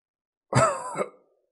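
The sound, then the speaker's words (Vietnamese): A harsh, violent dry cough from an old person: one short, loud burst with a second strained push just before it dies away, heard alone. “Bóng dáng xa xa kia truyền đến tiếng ho khan già nua mà dữ dội, dường như trái tim đều sắp phun ra.”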